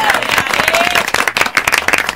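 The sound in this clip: Applause on a live Spanish-language radio show: thick, bright clapping with crowd noise that swells and dips, while voices talk over it.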